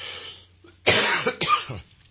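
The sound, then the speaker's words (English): Two harsh coughs from a person with a sinus infection. They are loud, close-together bursts, each trailing into a quieter, breathy rasp. “one of the reasons I'm coughing and sneezing and you hear all that is because I have a sinus infection”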